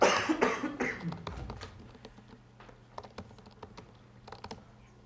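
Computer keyboard typing during a live coding demo: many quick, light key clicks in an uneven rhythm, with a cough near the start, all fairly faint.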